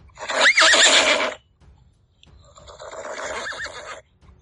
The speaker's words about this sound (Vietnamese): Bà mã dưới người hắn đột nhiên dừng lại, chân trước chồm lên không, gần như thành một góc 90 độ so với mặt cỏ. Cất tiếng hí như không dứt